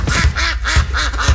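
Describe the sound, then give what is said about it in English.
Ducks quacking at a bird refuge in spring: about five harsh, nasal calls come in a quick, even rhythm. They are loud and heard alone. “Can you hear it? That's the sound of nature waking up in Box Elder County.”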